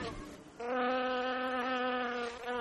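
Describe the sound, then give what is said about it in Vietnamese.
Flies buzzing, drawn to the sweet scent of ripe bananas being pressed: a steady, faint drone with a clear humming tone that wavers slightly in pitch, rising after a brief softer start and continuing to the end. “Cũng chính hương thơm và vị ngọt này đã thu hút ruồi và kiến thường kéo nhau đến”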